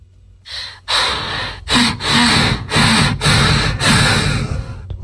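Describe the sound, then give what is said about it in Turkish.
A person imitates snoring with the voice: a loud series of harsh, raspy, breathy snorts that repeat in uneven bursts with no talk in between. “Bu nasıl horlama? Bu nasıl horlama böyle?”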